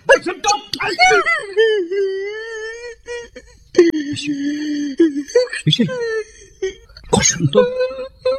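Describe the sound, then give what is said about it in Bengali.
A young man crying, with loud, drawn-out wailing moans broken by sobbing catches and sharp gasping breaths, rising and falling in waves. “আরে দূর বোকা ছেলে, বাচ্চা ছেলের মতো কাঁদছিস কেন?”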